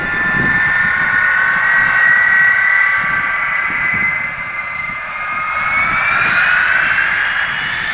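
Jet aircraft engines roar during an aborted takeoff, a loud, steady rushing with a high whining tone that dips briefly, then swells again.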